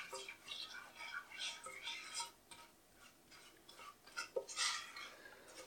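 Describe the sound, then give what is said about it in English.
A spoon stirring chocolate and sugar in a pan, heard as a run of soft scraping and ticking strokes against the pan. The strokes come in an irregular rhythm and stay faint throughout. “the rich chocolate, the delicious sugar. And we keep stirring.”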